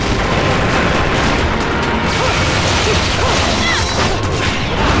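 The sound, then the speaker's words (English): Enemy missile fire in a video game: a dense, loud, continuous wash of blasts, booms and mechanical rattling that runs steadily throughout, with a few short chirping effects in the middle. “Ah, he's shooting missiles! Maybe we just keep running.”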